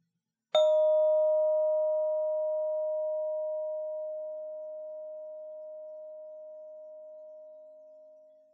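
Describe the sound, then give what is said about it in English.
A single bell-like sustained tone for a children's listening exercise sounds abruptly, then rings on steadily and slowly fades over about eight seconds until it is nearly gone, alone without any voices. “So you're going to listen to the tone as long as it lasts. And when there's no tone left at all, raise your hand in the air”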